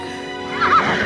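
A black stallion neighs, giving one short, fairly loud whinny midway through over a steady low background.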